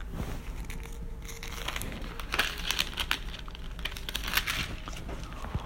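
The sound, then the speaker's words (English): Thin Bible pages being flipped, a continuous run of many soft, crackly rustles and crinkles of paper, heard alone without talk. “go flip a little more. I'm in Romans, going to Corinth.”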